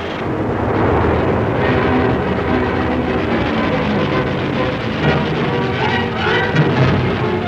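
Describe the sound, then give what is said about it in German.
Aircraft engines roar as German air force planes take off from an airfield in southern Greece, bound for Crete; a dense, loud, unbroken rumble holds at an even level throughout. “Start frei nach Kreta.”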